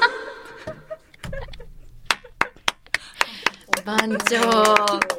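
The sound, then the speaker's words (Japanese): Applause on a cooking segment, a few sharp hand claps in uneven rhythm that build into a brief round, mixed with laughter and people talking. “番長本当に 拍手をいただきました。”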